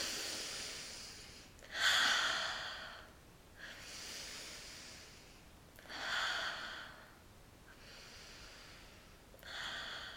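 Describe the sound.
Slow deep breathing from a group doing a breathing exercise: a few long, airy inhales and exhales that swell and fade, fairly faint, with no talking.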